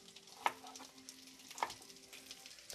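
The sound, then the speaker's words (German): Faint, steady sizzle of oil heating in a pan, broken by two sharp metallic clinks about a second apart, with no talking. “da ist das Öl auch schon gleich am Kochen.”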